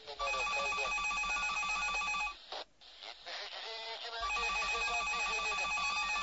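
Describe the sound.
A telephone rings in the early hours during an interrogation: a bright, jangling electronic ring that sounds continuously, with one short break in the middle, alone without voices.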